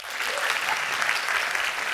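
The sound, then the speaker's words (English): Audience applause from people at a talk, in or studying for the film industry, clapping on cue: dense, steady clapping that holds an even loudness alone for about two seconds. “Clap here if you are in now or are studying to be in the film industry.”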